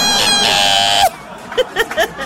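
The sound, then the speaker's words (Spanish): A voice imitates the squealing of a car's noisy, worn brakes: one shrill, sustained squeal lasting about a second that drops off sharply at the end, followed by a few faint, brief vocal sounds. “como nuestros frenos andaban sonando, fue un chillido así como...”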